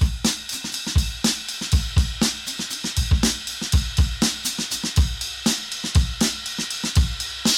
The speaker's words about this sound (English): there's a drum break in the song, and it sounds like this.